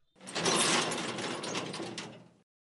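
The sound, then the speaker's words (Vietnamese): Heavy iron cell doors swinging open in a quiet detention corridor, two doors in all: one continuous grinding, scraping metallic rush, loud and sustained for about two seconds before stopping abruptly, with no voices. “Cùng với tiếng cửa sắt nặng nề vang lên, 2 cánh cửa sắt bỗng nhiên mở ra trong hành lang yên tĩnh như vậy, rõ ràng có hơi kỳ lạ.”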